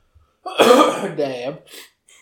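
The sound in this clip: A person gives a short, throaty cough in a couple of voiced bursts. The first burst is louder, and a faint trailing breath follows.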